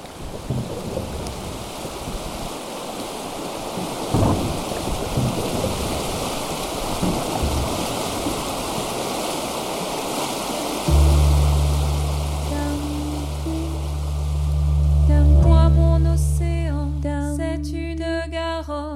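Gravel tumbling along the bed of a rushing river makes a loud, steady roaring wash of noise. Partway through, low sustained musical tones come in beneath it.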